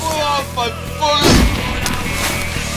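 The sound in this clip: A single heavy gunshot blast booms out during a firefight, sharp at onset and followed by a rumbling decay, with voices heard before it.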